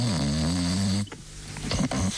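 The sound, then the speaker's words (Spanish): A woman snoring: a low, rasping, harmonic snore fills the first second, followed by quieter breathy, shuffling sounds. “Su señora está roncando.”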